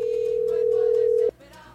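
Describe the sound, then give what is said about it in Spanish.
Steady telephone line tone after a number is dialed, a single continuous mid-pitched hum lasting over a second before cutting off abruptly into quieter line noise. “Vamos a marcar por aquí, por aquí, por aquí, por aquí, por aquí, por aquí. Y ahí está marcando.”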